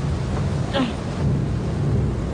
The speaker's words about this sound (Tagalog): Talayon sa panahon? May bagyo siguro ay.